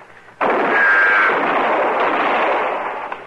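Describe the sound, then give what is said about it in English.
A single loud gunshot in a western radio drama, a sudden sharp blast followed by a long, rumbling tail that fades slowly over about three seconds. “I'll shoot!”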